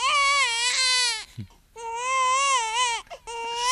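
A baby cries in loud, high, wavering wails, with short gasping breaths between them. Three bouts are heard, the last cut short.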